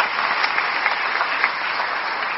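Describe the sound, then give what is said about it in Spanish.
Audience applause for a bishop at a church celebration of the Virgin Mary: a dense, even wash of many hands clapping that holds steady throughout without a break. “Muchas gracias, señor obispo. Un aplauso para él.”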